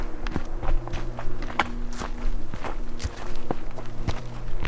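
Footsteps of people hiking up a mound in a park, many steps landing in a fairly steady walking rhythm over a low, constant background hum.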